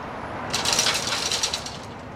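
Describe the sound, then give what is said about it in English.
A man rattles a shop's metal security grills, making a burst of jangling, clattering metal that lasts about a second and a half before fading to a faint rattle. “The man rattles the shop's security grills.”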